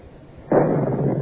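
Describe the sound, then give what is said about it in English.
A cannon aboard a ship fires a shell with a lit fuse on a charge of a pound and three quarters of powder: one sudden, loud blast that rolls on into a sustained, heavy rumble to the end. “She's caught, sir. Ready? Fire!”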